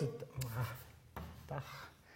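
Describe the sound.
Chalk or marker scraping across a board during a lecture, with a few short, faint rubbing strokes and a quiet voice underneath.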